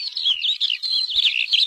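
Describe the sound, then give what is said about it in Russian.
A flock of larks sings in chorus as it rises into the sky, making continuous high-pitched twittering and warbling of many overlapping bird voices that stays lively and bright throughout, with no talk. “Стая жаворонков поднялась в голубом воздухе и запела хором.”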